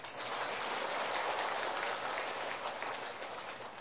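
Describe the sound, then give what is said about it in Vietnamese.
An audience in a lecture hall applauds with steady, dense clapping that holds at an even level for about four seconds. It forms a soft hiss-like wash with no voices. “Thôi vậy mình hoan hô cho 20 người đó đi.”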